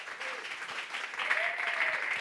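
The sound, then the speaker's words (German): Audience applause welcoming guests onto a stage: a soft, steady wash of clapping that grows somewhat louder and fuller halfway through and stays even to the end. “Begrüßen wir sie doch mit einem herzlichen Applaus auf der Bühne.”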